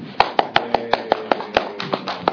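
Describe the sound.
Rhythmic clapping from people welcoming someone called up to the front at a gathering. Many sharp, evenly spaced claps keep a steady beat throughout, with no talk over them.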